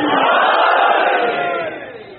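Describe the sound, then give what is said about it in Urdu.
A large religious gathering shouts the Naara-e-Haidari slogan together. The massed cry is loud and sustained, then fades in the last half second. “دونوں ہاتھ ملان کر کے نعرہ حیدری.”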